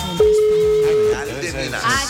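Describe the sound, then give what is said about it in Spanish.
A telephone dial tone on an outgoing call: one steady mid-pitched beep lasting about a second, heard over voices and other sound. “Estamos llamando a Real de Minas.”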